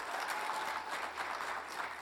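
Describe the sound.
An audience claps steadily to welcome two ministry partners, a sustained and even wash of applause that doesn't let up.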